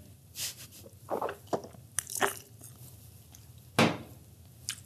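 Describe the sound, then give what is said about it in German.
Sipping a drink, heard as a few short, soft slurping and mouth noises with small clicks between them, with no talk. “Ich nehme mal einen Schluck.”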